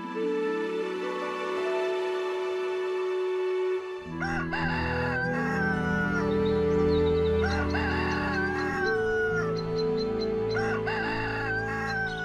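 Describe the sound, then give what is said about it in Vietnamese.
A rooster crows at dawn, giving a few drawn-out, wavering cock-a-doodle-doo calls over a steady, low musical drone. No voices are heard. “Tiếng gà gáy sáng cất lên vang vọng.”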